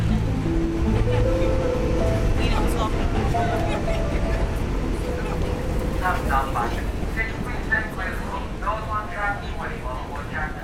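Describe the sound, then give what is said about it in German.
Steady, loud rumble of a subway train ride toward Brooklyn, with a continuous low roar throughout and higher squealing tones emerging in the second half. “Ich fahre mit der U-Bahn nach Brooklyn zur Manufaktur.”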